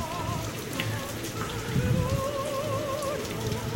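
Rain falls in a steady, dense hiss of drops striking a surface. It runs unbroken throughout at an even, moderate level.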